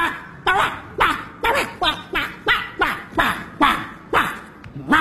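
Dog barking in a quick, even series of many short, sharp barks, each dropping slightly in pitch, loud and with no talk over them.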